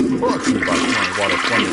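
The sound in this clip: Toilet flush with a loud, steady rush of swirling water lasting under two seconds, the gushing noise holding an even level throughout.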